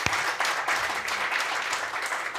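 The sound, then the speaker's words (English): Audience applause welcoming invited guests, a dense, steady wash of clapping that holds at an even level from start to finish. “Let's give them a big round of applause to our guests.”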